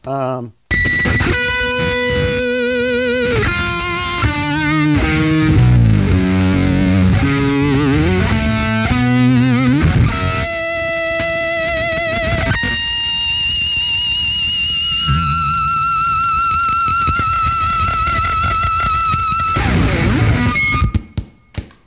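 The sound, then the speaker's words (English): An electric guitar plays through a distortion pedal followed by an octave pedal. It produces thick, fuzzy, saturated notes and chords in shifting phrases and held tones for about twenty seconds. “And if I was to put another distortion before it and an octave pedal after it,”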